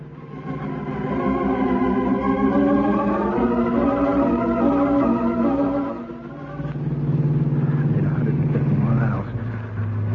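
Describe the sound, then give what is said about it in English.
A car driven fast in flight, its loud, steady engine roar carrying shifting tonal whines, with a brief drop in level partway through before the drone returns. “I can't go home now. I've got to drive, and drive fast.”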